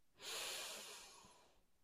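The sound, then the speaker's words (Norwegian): A single long, deep inhale during a guided breathing exercise: a soft airy hiss that swells quickly, holds, then slowly tapers off. It is faint and there is no talk. “Og pust inn igjen.”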